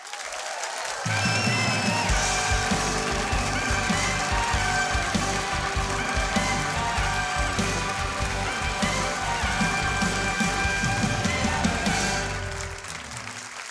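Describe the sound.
A talk show studio audience applauds to welcome a guest: a dense, sustained patter of clapping that keeps an even level for about eleven seconds before tapering off.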